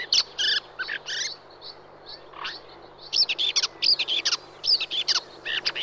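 Red-backed shrike song: many short, high, chirpy and scratchy notes in quick, varied bursts, with brief pauses between phrases and a faint low hum beneath.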